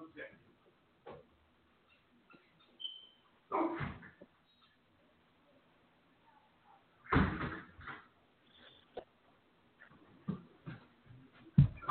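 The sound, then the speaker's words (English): A door being opened and closed at home when someone answers it: a few scattered, muffled clunks and thumps with quiet gaps between them. “Had to get the door.”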